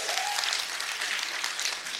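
Audience in a hall applauding, a fairly quiet, steady patter of many clapping hands that lasts the whole short stretch.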